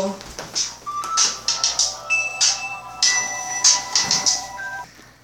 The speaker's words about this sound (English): Excuse that, that was a phone ringtone.